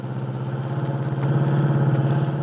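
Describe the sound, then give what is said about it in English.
An older car's engine drones while it drives along a road toward a farm. The low, rumbling hum has a steady pulsing throb and grows slightly louder partway through. “Del Shipley, with Aunt Mary on the seat beside her, is driving her car toward the Lane Farm on Willow Road.”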